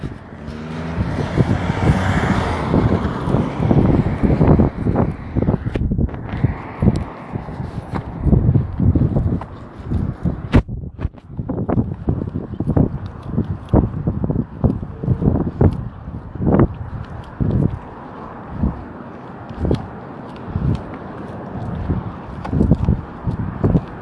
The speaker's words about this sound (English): Okay, so that was fun. I'm walking again.